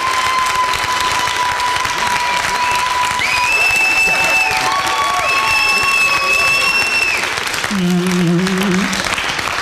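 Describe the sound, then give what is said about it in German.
Audience applause fills the room at a live question-and-answer event: a dense, steady wash of clapping that stays loud throughout. Sustained musical tones sound over it. “Und jetzt noch euer Applaus für die Frage von Niklas P.”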